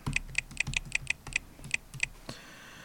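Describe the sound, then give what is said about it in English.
Keystrokes on a computer keyboard as a password is typed: a quick, uneven run of many sharp, fairly quiet clicks, ending in a short lull. “So I'm going to type this in now.”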